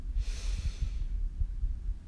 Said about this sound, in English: Take a deep breath in